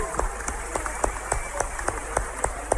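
A church audience claps for Jesus in a steady, even rhythm. The sharp handclaps are fairly faint and repeat at regular intervals, with a low hum beneath them.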